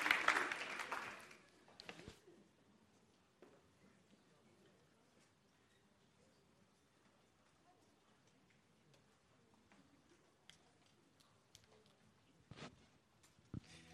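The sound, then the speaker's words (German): Congregation applause in a church service: a short, loud burst of clapping for about two seconds at the start, then it drops to near silence with only faint scattered sounds. “Geben wir ihm einen kräftigen Applaus.”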